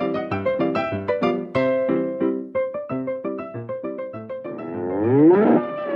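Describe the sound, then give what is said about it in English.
A bull mooing in a series of deep, loud, pulsing lows, each one short and strongly resonant, repeating in an uneven rhythm before ending in a longer, wavering bellow. “That is the sound of a bull.”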